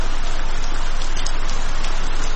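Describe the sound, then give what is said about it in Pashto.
Heavy rain pours down in a dense, steady hiss that stays loud and even throughout, with no voices. “باران تیز شو داسې شرشوری شو لکه ناوې چې له اسمان راخوشي شي”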